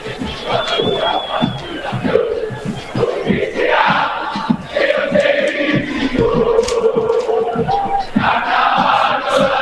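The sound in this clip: Boca Juniors supporters, known as La 12, sing and chant in their stadium before the first half of a match. Massed voices roar continuously and loudly, with rhythmic accents running through the crowd singing.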